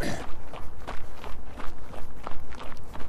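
Footsteps of people running on a park loop thud in a quick, even rhythm, roughly three loud strides per second throughout.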